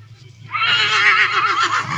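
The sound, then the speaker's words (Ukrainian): A five-year-old stallion weighing 640 kilograms, a horse that works hauling in the forest, lets out a loud, high, quavering whinny. It starts after a brief quiet moment and carries on to the end over a low steady hum. “Це мій вихованець, жеребець Борис. Жеребцеві буде 5 років, 640 кілограм він заважив сьогодні.”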